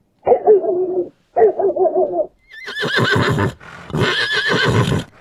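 A horse neighs: two shorter, lower whinnies are followed by two longer, louder, breathier whinnies with a shaky, wavering pitch.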